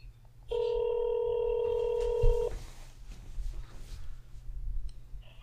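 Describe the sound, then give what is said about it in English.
A steady electronic telephone tone sounds for about two seconds while calling a pizza shop, then cuts off with a click, leaving low background hiss and faint shuffling. “Calling Emo's Pizza.”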